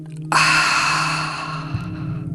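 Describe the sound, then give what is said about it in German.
A long, deep exhale through the nose during a guided breathing exercise makes a steady, breathy rush that lasts about two seconds and gradually tapers off. “Ganz lang und tief durch die Nase ausatmen, noch tiefer einatmen und alles lösen.”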